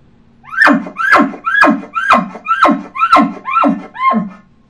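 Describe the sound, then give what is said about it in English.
A cow elk chuckle call is voiced through a tube, eight quick evenly spaced squealing notes that each dip in pitch, loud and resonant, with the final note slightly softer. “Now, once I put it through the tube, then you'll have that complete chuckle that's magnified through the tube, and it sounds like this.”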